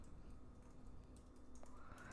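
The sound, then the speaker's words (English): Fingers type on a computer keyboard, a faint, irregular stream of many soft clicks over a low steady hum, with no talk. “I'm just typing it.”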